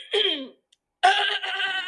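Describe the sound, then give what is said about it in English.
Person clearing their throat in two rough, voiced bursts separated by a short silence, the second one longer and rasping on without any words. “just clear your throat one more time real quick.”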